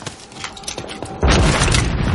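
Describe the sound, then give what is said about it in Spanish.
Gunfire from a rifle shot from a church bell tower in a Second World War film battle. A few lighter pops and thuds lead into a sudden, heavy boom that holds as a loud, sustained roar. “Jackson dispara desde el campanario.”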